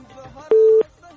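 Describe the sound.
One brief, steady telephone busy tone after a dropped call, a single clear electronic beep cutting through faint background talk.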